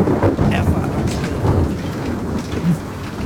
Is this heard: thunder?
yes